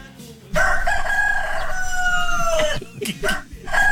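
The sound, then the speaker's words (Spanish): A rooster crowing: one long, loud, strained cock-a-doodle-doo that holds for about two seconds, followed by a few short, choppy sounds. “El canto del gallo. El canto del gallo.”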